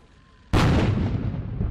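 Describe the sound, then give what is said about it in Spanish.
A cannon blast from a 90-gun salute in London for a royal birthday: one sudden, loud report after a quiet moment, trailing into a long, fading roar. “En Londres, un saludo a 90 cañonazos”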